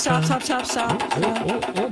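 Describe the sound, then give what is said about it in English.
Rapid, regular clicking of a game show prize wheel being spun, running steadily under lively talking voices. “Let's spin that wheel and figure out what's going to be played.”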